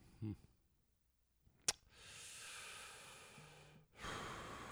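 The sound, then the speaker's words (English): Heavy breathing made by a person on purpose. A soft click comes first, then a long, hissing, drawn-out breath and a second breath after a brief pause. No one speaks. “I'm going to breathe heavily.”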